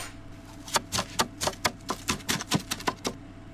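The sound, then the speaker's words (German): Vegetables being chopped into small pieces with a knife: many sharp, evenly spaced chops in a steady rhythm, with no other sounds. “Zuerst müsst ihr das Gemüse klein schneiden.”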